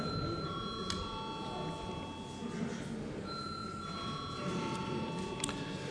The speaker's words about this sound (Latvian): Paldies, lūdzu zvanu.